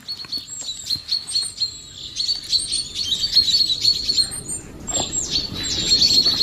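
Bird alarm calls, a dense, unbroken run of many high, sharp chirps and tweets at moderate loudness, with no voices.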